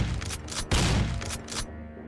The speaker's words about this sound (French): on va prendre chacun un tir, bang, bang, bang, ça va, on voit la détonation une fois à gauche, une fois à droite, une fois à gauche, une fois à droite.